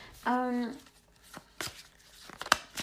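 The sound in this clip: Tarot cards from a Rider-Waite deck being pulled during a reading: a few brief, dry papery swishes and snaps of card against card, preceded by a short voiced sound.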